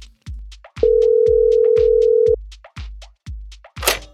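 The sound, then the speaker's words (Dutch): A telephone ringback tone sounds while a call is being placed. It is one steady, mid-pitched beep of about one and a half seconds over a regular thumping music beat. “laten we gewoon eens gaan bellen”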